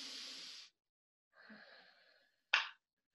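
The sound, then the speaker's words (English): Breathing during a posture exercise, sitting upright with shoulders pulled back and hands on hips: a breathy rush, a pause, then a softer, longer breath, ending in one short, sharp puff of air, all faint and without talk. “Put your shoulders right back. Yeah, as if you're sitting up straight. Yeah, hands on your hip because that'll push them back further. Mm-hmm. Then take a really deep breath.”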